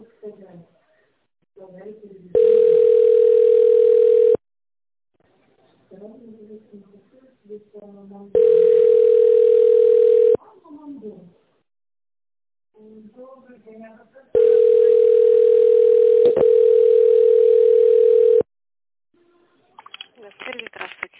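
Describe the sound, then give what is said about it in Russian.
Telephone ringback tone while calling a company: three long, steady buzzing tones, each a couple of seconds or more, separated by pauses with faint muffled talk in between. “Я звоню в компанию.”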